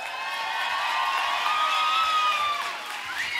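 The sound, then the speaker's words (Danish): An audience cheers and applauds for an orchestra, a sustained crowd roar with high whistles and whoops riding over continuous clapping at an even, fairly loud level. “Er der overhovedet nogen, der har givet det her fremragende orkester en hånd på vejen?”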